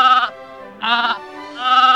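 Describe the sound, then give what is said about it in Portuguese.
Three loud, wavering sheep bleats come from a flock returning from pasture on a dark autumn evening. Each cry is nasal and high, with short quiet gaps between them. “Numa tarde escura de outono, o Senhor Mago voltava do campo com as suas ovelhas, já fartas de pastar.”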